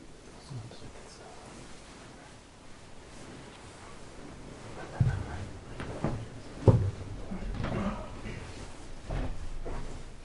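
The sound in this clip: A window is opened with a few soft clunks and rattles, faint over low background noise.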